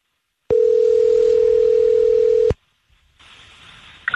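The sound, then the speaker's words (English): A loud, steady telephone dial tone holds at one pitch for about two seconds and stops abruptly. Brief silence follows, then a softer hiss rises on the line. “Takes like a minute and a half to dial here.”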